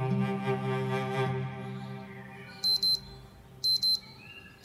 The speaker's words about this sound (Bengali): মোবাইলের অ্যালার্মের আওয়াজে উঠে বসল